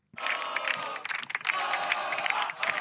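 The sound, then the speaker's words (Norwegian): Cheering from a crowd of football cup winners, loud shouting and whooping mixed with some clapping, continuous and energetic after a sudden start, with a brief ragged patch midway. “Dette er lyden av vinnere. Det høres ut som en hel skare med folk.”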